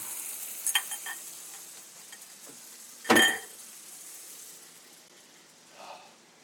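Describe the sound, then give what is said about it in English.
Eggs frying in pan drippings, dropped into a well in the middle of the pan. A faint, steady sizzling hiss runs throughout, with one loud, crackling burst midway and a few smaller pops. “So now I make a well in the middle. And then in the center in those drippings, I drop in the eggs.”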